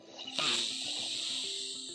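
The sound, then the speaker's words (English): A deep breath is drawn in through the nose as a soft, airy hiss that starts abruptly and holds steady for over a second. Gentle, sustained music tones continue underneath. “Let's breathe in through the nose, close the eyes.”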